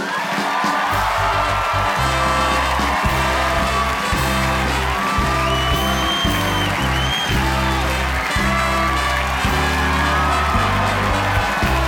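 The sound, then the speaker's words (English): A studio audience cheers and applauds as Barack Obama, the 44th President of the United States, comes on as a talk show guest. The roar is loud and continuous over band music with a steady, pulsing bass line. “Please welcome my first guest, actually my only guest, the 44th President of the United States, Barack Obama.”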